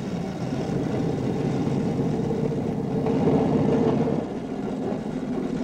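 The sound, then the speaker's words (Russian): A car drives along a forest road in a wartime setting, its engine a steady, low droning rumble at moderate level that swells slightly before settling back. “Они сворачивают в лес. Проезжают самодельный указатель направления. Направо Курск, налево Орел. Едут по лесу.”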